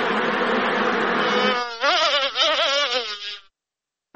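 Honeybees buzzing at a bee farm in Helmand: a loud, dense, steady drone whose pitch wavers in its second half, then stops abruptly, leaving a short silence.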